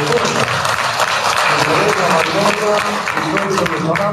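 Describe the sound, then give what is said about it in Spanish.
A crowd gives a strong round of applause for a departmental governor, a thick, continuous patter of clapping that stays level throughout, with a voice speaking over it. “Desde aquí, un fuerte aplauso para el hermano gobernador del departamento de Leonardo Rosa”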